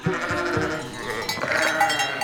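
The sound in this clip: Goats bleat in an excited crowd, all jostling after a girl for ice cream. Many overlapping bleats form a continuous, fairly loud din without pause.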